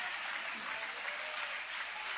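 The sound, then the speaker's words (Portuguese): A church audience applauds, a steady, dense patter of many hands clapping at an even, fairly soft level throughout. “E se pode aplaudir o nome de Jesus com alegria.”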